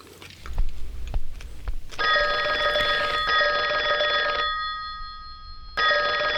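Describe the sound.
A telephone rings with a sustained electronic trill after a few brief knocks, breaks off for a moment, then starts ringing again.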